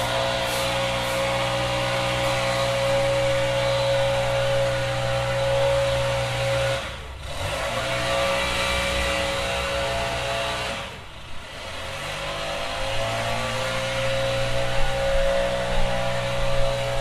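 A leaf blower runs across the street in the morning, a steady, loud droning motor with a constant tonal whine that briefly dips twice before resuming at full strength.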